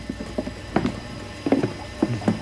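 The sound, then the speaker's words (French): An invented machine for brushing clothes runs with irregular clusters of small mechanical clicks and rattles over a steady low hum. “Et ça, c'est un appareil à brosser les vêtements. Pas mal, ce machin-là. Non, une machine à brosser les vêtements.”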